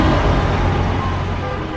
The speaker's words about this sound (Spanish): Por allá se ve que viene. Acá sigo esperando el autobús